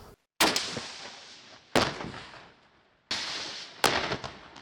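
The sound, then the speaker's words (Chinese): Heavy-weapon gunfire from live-fire training by Pakistani border police. Four sharp, loud blasts ring out at irregular intervals, each trailing off into a rough, decaying rumble. “巴基斯坦边境远警无论男女都要接受各式重武器的实弹射击训练”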